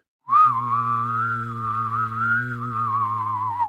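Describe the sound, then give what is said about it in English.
A voice imitates a 1950s-style saucer-shaped flying saucer by humming and whistling at once: a steady low hum under a wavering, warbling whistle, held alone for about three and a half seconds. “this is the noise of a very 1950s style spacecraft, a UFO in the shape of a saucer.”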